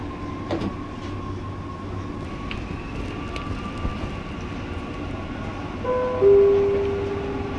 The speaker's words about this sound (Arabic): الأبواب تغلق. Doors closing.